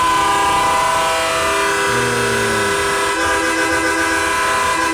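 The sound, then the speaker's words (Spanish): A loud train horn sounds in a long, steady blast with rich layered tones that hold for the full five seconds, over constant rumbling and no voices. “Pues está bien duro ese pito.”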